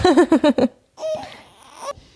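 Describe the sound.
A baby girl fussing and crying: a quick run of five short, whiny wails, a brief pause, then one longer, wavering whimper that trails off.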